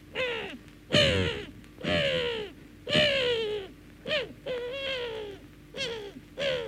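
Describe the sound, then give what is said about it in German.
Seagulls screech in a series of many harsh cries, each sliding downward in pitch, fairly faint and rhythmic, with no talking. “was schreien denn da die Möwen?”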